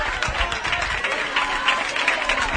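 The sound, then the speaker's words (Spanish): A crowd gathered at the gates of a neighbourhood association claps and cheers as a candidate for the Andalusian regional government arrives, with dense, steady applause and talk over it. “ovacionada por el público que se ha congregado a las puertas de la Asociación de Vecinos Nuestra Señora del Pilar”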